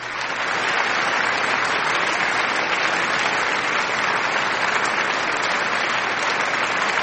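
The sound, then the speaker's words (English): A round of clapping given to listeners, heard as a sustained wash of crowd applause at an even level throughout, with a slightly muffled, dull tone. “Let me give you a clap.”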